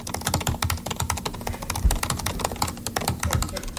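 Fast typing on a 2018 MacBook Pro keyboard produces many quick, light key clicks in an uneven, continuous patter of even loudness, with no voices.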